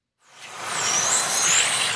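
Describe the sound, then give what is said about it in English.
Tiny electric cars race around a mini racetrack, a broad rushing whoosh swelling up after a short silence, then holding steady with a faint high whine on top. “Here in the south of Berlin, a group of men have got together to race tiny electric cars around a mini racetrack. And they're off.”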